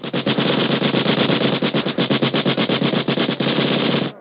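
A machine gun fires long, rapid, loud bursts of shots aimed at a warehouse. The staccato rattle is nearly unbroken, with one brief gap near the end.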